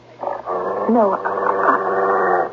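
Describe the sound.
A dog whimpering: a continuous, high, wavering whine with a few quick pitch bends, fairly loud and lasting about two seconds.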